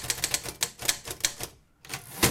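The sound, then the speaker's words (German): Rapid typing on the original typewriter of a bestselling romance novelist, many crisp metallic keystrokes in quick irregular bursts, then a short pause before a final hard strike. “Im Hedwig-Kurzmaler-Archiv in Nebra steht heute die Originalschreibmaschine der Bestseller-Autorin.”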